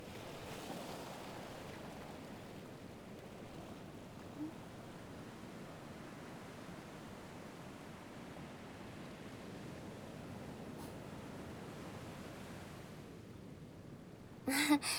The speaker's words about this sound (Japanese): ただぼんやり海を眺めながら波の音と海猫の鳴き声を聞いて。